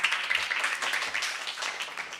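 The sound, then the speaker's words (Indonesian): A church audience claps for Jesus during a worship service, producing fairly faint, dense, continuous applause with slight surges in intensity. “Mana tepuk tangannya? Lebih dahsyat lagi tepuk tangannya buat Tuhan Yesus.”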